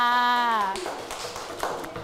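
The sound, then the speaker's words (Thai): Applause for a student representative in a classroom, a short burst of many claps that follows a brief spoken phrase from one voice. “เยี่ยมมากๆเลยค่ะเอาปรบมือให้ตัวแทนของเราค่ะ”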